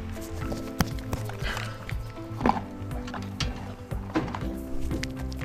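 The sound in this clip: A standard-sized horse eats a carrot held out to it by hand, giving irregular crunching and munching thunks over a steady tonal background.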